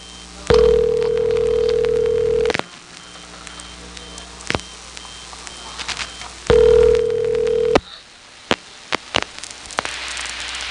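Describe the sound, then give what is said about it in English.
Call progress tones from a crossbar 5 telephone exchange with pseudo-modern tones, on a call routed to an old centralized intercept system. Two steady, mid-pitched tone bursts, the first about two seconds and the second shorter, are separated by faint crackle and scattered clicks. “The crossbar 5 that I'm about to call has pseudo-modern tones, just like two of them in Raleigh.”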